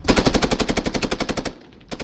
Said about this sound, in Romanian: Asupra infanteriei cu 14, foc! La obiectivul 3-7-32, foc!